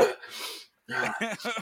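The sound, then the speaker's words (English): Throat clearing: a rough, noisy burst followed by a short run of gravelly, voiced rasps. “Sorry, I had a frog in my throat.”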